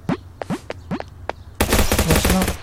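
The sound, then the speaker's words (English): Gunfire in a video game: a few sharp, sweeping shots ring out one after another, then a loud, dense burst of rapid automatic fire takes over to the end. “Oh, and someone is trying to shoot at me, and they just shot the item.”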